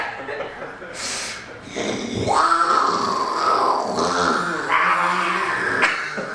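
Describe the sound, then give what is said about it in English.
A human voice imitates a bear's growl, a rough, low, throaty rumble with snorting breaths that swells and holds for several seconds without words. “I have no bear sounds. I'm sorry. I don't know where else. I mean, like, mine are literally grrr.”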